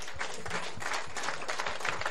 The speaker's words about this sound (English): I want you to give yourselves a round of applause.